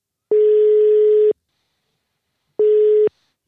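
Telephone ringback tone while calling a grandmother: two loud, steady beeps at one unchanging pitch. The first lasts about a second, followed by silence, and the second is shorter.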